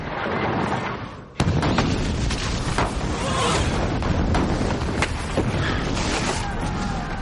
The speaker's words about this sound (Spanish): Las catapultas disparan contra la muralla.